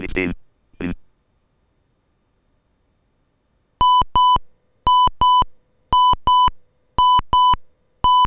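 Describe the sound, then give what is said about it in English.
Electronic test alarm beeping from a talking alarm clock: a brief voice at the start, then short high-pitched beeps in steady pairs, four pairs plus the start of a fifth. “Alarm message. This is a test alarm.”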